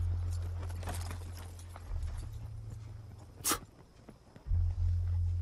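Horse hooves clip-clopping in a cavalry scene set among Texas horsemen, an irregular run of soft hoof knocks over a low steady hum, with one sharp bright click partway through.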